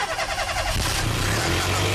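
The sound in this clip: A car engine starts and runs with a loud, steady mid-pitched rumble and buzzing mechanical noise that continues without a break.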